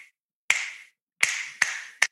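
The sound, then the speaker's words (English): Four sharp hand claps beat out a rhythm: a single clap, then a pause, then three quicker claps, each crisp and isolated against silence. “I actually start hearing a rhythm. Mm-hmm. And the rhythm is something like”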